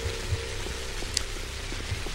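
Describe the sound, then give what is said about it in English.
Rain falls in a video game: a steady, soft hiss with scattered faint drop ticks throughout. “oh, it's raining.”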